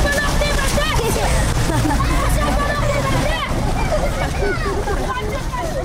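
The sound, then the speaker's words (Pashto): A water fountain on a city street splashes in a loud, steady rush of falling water, with a crowd chattering underneath throughout. “په دې واټ کې د اوبو یوه فواره جوړه شوې، د ځوانانو د یادګاري عکسونو او د ماشومانو لپاره د لوبو په ځای بدل شوی.”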